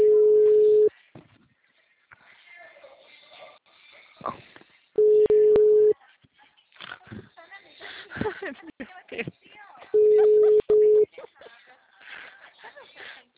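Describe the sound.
Ringback tone on a telephone call while waiting for an answer: three steady, low beeps, each about a second long and roughly five seconds apart, with voices talking in the gaps between them.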